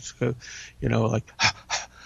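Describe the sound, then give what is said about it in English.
A human voice imitates a dog's play laugh, an unvoiced breathy pant: a few short, airy huffs of exhaled breath, one longer, spaced irregularly over about two seconds. “she first described it as sounding to an untrained human ear much like a pant, but with no voicing.”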